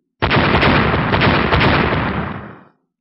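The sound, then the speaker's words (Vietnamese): A mind-power blast striking an ice layer erupts as a sudden, loud explosive roar. The single rumbling burst holds steady for about two seconds, then fades out. “La Phong bay đến một nơi rất xa, lại một lần nữa dùng niệm lực oanh kích tầng băng phía dưới.”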